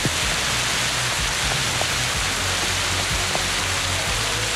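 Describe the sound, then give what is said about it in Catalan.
Heavy rain pours down during a storm in Tordera, a dense and unbroken hiss with a faint low rumble underneath. “Sí, sí, aquest és el so de la pluja ara mateix a Tordera, ho podeu sentir.”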